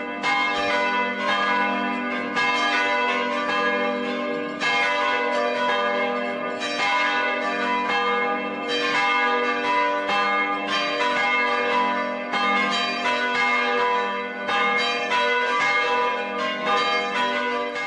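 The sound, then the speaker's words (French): Church bells of Notre-Dame de la Platée in Castres all swing together in a full peal calling the town. A dense, loud, continuous clangour of overlapping tones holds steady from start to finish with no voices. “On vient d'entendre l'appel, c'est-à-dire... Ils mettent toutes les cloches en branle, la castre, à Notre-Dame de la Platée, pour appeler toute la ville”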